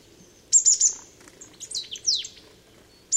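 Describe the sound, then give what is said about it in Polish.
A bird giving its two-syllable warning call: a few high, thin chirps in quick bursts, followed by several sharply descending whistled notes and a short closing chirp, with no other sound. “Najczęściej z widokiem ptaka kojarzymy dwusylabowy głos ostrzegawczy”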